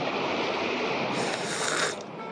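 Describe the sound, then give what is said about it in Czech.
Sea waves churn in stormy, rainy weather, a continuous loud roaring wash that grows briefly brighter and harsher before settling back. “Vlny, kroupy, dešť a zima. Mokro a zase mokro.”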